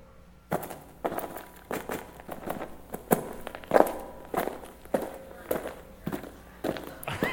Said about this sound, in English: What's the person doing? What action are they doing? They're walking on what? On gravel.